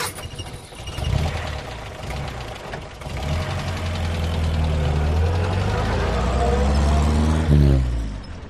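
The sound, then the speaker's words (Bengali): A private taxi's car engine starts and drives off as talk fades at the start. The engine hum climbs steadily in pitch as it revs away, then drops off near the end. “তারপর সে একটা গাড়ির দিকে এগিয়ে গেল। এটা একটা private taxi, আগে ছিল না।”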